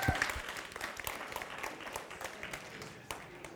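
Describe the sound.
Church audience applause welcoming a guest speaker to the stage: dense, continuous clapping from many hands, fairly faint and steady, easing slightly toward the end.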